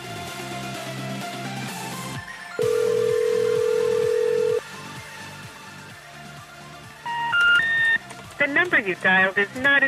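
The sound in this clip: A telephone call dialed to a landline that is not in service: a steady dial tone holds for about two seconds, then a rising three-step signal tone and a run of short, warbling tone bursts follow.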